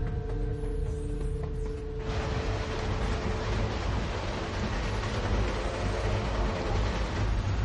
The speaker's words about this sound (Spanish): Hitler viaja en un tren camino de su cuartel general avanzado